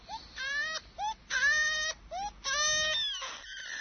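A baby cries in a run of short, high wailing bursts that rise and fall in pitch and are separated by brief gasps, moderately loud with no talk over them.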